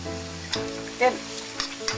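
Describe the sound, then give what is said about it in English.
Onions and mushrooms sizzle steadily in a frying pan as they are stirred, with a few scraping strokes of the utensil rising briefly above the constant hiss. “Now I'm going to give my onions and mushrooms a stir.”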